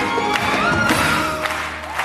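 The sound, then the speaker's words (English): Audience standing ovation after a traditional Ethiopian song about friendship and saying goodbye: dense, steady applause with crowd cheering, holding at an even level throughout. “With standing ovations, the audience is clearly moved.”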